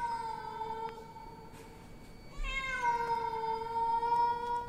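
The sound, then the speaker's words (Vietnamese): A cat meows loudly outside a window in one long, sustained, wavering yowl that swells louder midway and carries on steadily over a faint background hiss. “Tự nhiên, ở bên ngoài, có cái con mèo nó kêu vang từ cửa sổ.”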